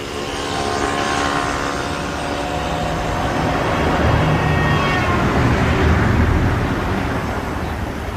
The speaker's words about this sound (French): On démarre, accrochez vos ceintures.